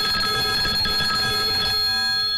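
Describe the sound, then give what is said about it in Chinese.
A telephone rings as a call is placed to a soldier's island front-line post. The ringing is a steady bright tone with several clear pitches, and it thins out near the end. No voices are heard. “不信呐，我这就给他打电话。”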